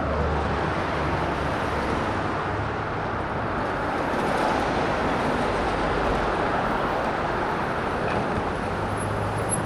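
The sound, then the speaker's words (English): Street traffic on Manhattan's Upper East Side in New York City on a sunny day: a steady, dense roar of road noise with a low rumble that runs unbroken and even in level, with no single standout vehicle. “This is the sound of the streets of New York City”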